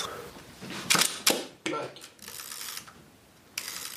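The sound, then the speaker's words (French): A film camera's advance lever winds to the next frame, giving a few quick ratcheting clicks and short mechanical whirs in separate bursts. “Ça, c'est pour passer la... Parce que il y a une pellicule photo dedans, donc pour passer la vue d'après.”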